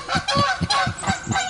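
Flock of geese honking: a rapid run of harsh, nasal honks that overlap in a steady, loud rhythm with no talk.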